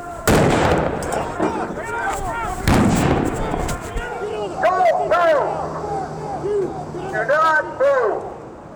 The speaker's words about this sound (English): Flashbang grenades explode around them as FBI agents in military-style tactical gear sprint out, guns drawn.